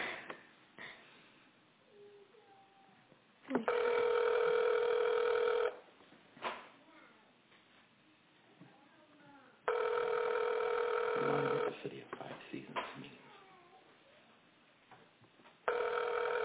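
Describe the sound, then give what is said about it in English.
A telephone call rings out on the line: long buzzing ring tones of about two seconds each, separated by longer quiet gaps, with faint background noise between them. “we got the phone dialing right now, so let's do that again”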